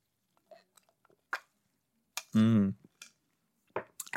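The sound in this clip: Chewing on a cranberry snack: a few soft, scattered wet clicks and crunches, broken by one short burst of voice in the middle.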